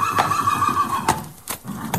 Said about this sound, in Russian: Лошади стали у почтового домика.